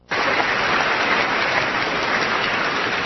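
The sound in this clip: Audience applause: a dense, steady wash of clapping that starts abruptly and holds at an even, fairly loud level throughout, with no single claps standing out.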